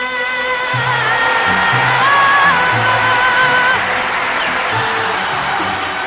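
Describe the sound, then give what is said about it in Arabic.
A crowd cheers and whoops in a dense, loud, continuous roar that holds steady without a break. “شوف الجمهور بقى بيهيص ازاي بيعمل ايه.”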